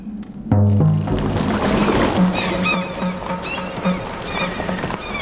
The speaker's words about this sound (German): Siehst du diese Wagen? Sie kommen aus Lüttich.